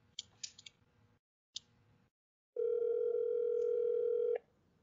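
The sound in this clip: A phone call rings out on the line and goes to voicemail. A few quiet clicks and taps come first, then a single steady, loud ringback tone holds for about two seconds before cutting off.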